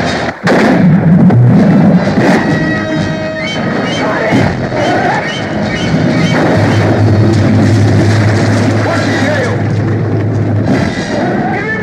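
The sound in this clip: Gunfire in a scene from the film Jaws, with booming shots buried in a dense, loud bed of music and voices.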